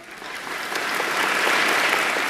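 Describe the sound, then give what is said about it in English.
A round of applause from an audience, many hands clapping in a dense patter that swells from a softer start to a steady, full level. “How about another round of applause for the contributions from Shelley Pendergrass?”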